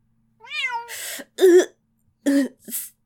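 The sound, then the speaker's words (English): Meowth Pokémon cry in a crowded room, with a few short cat-like meows, some rough and cough-like, coming in separate bursts with gaps between them. “It also feels too crowded because of all the Meowth in here.”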